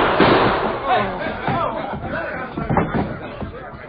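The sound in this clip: Gunshots ring out in a radio drama saloon fight, a few sharp bangs cutting through shouting and overlapping voices.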